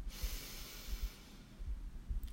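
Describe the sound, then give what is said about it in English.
A person breathing deeply during a guided relaxation exercise, a soft airy hiss of breath that fades out, with faint low puffs, quiet and without talk. “Breathe in and out.”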